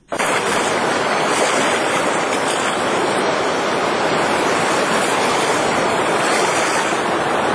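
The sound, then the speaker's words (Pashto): The flooded Kunar River in Afghanistan produces a loud, steady, unbroken roar of rushing water that holds constant from start to finish, with no voices. “د کونړ سیند بیا صفان شو.”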